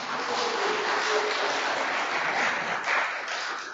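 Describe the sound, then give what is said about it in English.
Steady, dense applause from a church audience honouring the music department, a continuous wash of many clapping hands at an even level throughout, with no voices standing out. “I think we should have a round of applause for the music department,”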